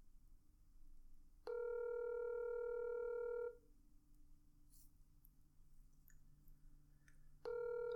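Ringback tone of an outgoing telephone call to an office line: a faint, steady electronic tone lasting about two seconds, roughly four seconds of quiet line hiss, then the next tone starting.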